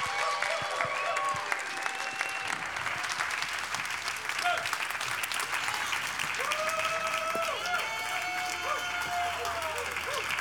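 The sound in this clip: Audience applause at Bethel Atlanta welcoming a speaker to the stage, a dense, continuous roll of clapping that holds steady throughout, with some cheering voices mixed in.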